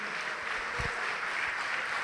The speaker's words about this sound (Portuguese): Vamos aplaudir o Senhor e se coloque de pé no seu lugar.